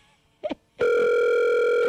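An outgoing telephone call rings unanswered: after a short quiet lead-in with a brief soft sound, a loud, steady electronic ringback tone starts and holds evenly to the end.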